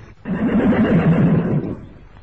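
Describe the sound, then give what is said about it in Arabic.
A horse whinnies once, a loud wavering neigh with a shaking pitch that lasts about a second and a half before dropping away. “خيل إلي أني سمعت صوت حصان يصهل. حصان يصهل”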